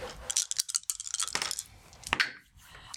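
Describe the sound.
Dice roll across a table during a tabletop role-playing game, a quick burst of sharp, irregular clicks and rattling taps that fades out, fairly faint.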